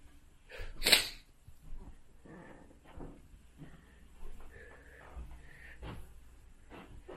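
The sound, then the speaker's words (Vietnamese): A cupboard door closes with one sharp clunk, followed by faint handling noises and soft scattered knocks. “Rồi, đóng tủ lại.”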